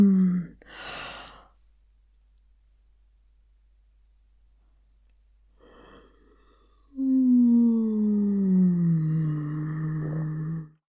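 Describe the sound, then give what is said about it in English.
A vocal warm-up in which a voice slides downward from a yawn through its register. A breathy sigh comes first, then a long pause, then a sustained hum falling slowly in pitch for several seconds. “my favourite vocal warm-up is to slide down from a yawn through your entire register until you end in an”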